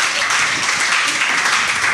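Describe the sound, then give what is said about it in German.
Applause from a live audience at an in-person recording: dense, even crowd clapping that holds at a steady, fairly loud level for the whole two seconds with no clear breaks. “Ja, da kann man ruhig mal klatschen. Bitte, das ist doch schon eine Leistung.”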